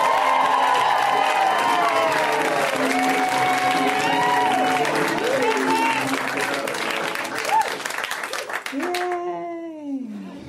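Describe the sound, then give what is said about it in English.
Comedy club audience in Los Angeles applauding and cheering for a comedian's first appearance on the show: loud clapping and whoops for about nine seconds, then the noise cuts away and a single voice speaks. “We are going to go extra crazy for her because we always go nuts when someone's first time on the show. Let's hear it now for Liz Mealy, guys. Give it up for Liz!”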